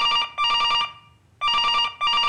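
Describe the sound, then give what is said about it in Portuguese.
An intercom rings in bright, electronic, bell-like bursts, with two groups of ringing separated by a short silence. “Poucos minutos depois, o interfone tocou. Ela reconheceu aquele toque.”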